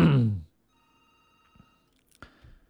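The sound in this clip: A telephone rings with an incoming call to a radio show, a faint, steady electronic ring tone heard after a burst of talk, followed by more brief voices and clicks.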